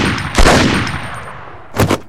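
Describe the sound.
A pistol fires a sharp, loud bang with a long ringing decay and a thin metallic whine, then a second, double-peaked crack comes near the end.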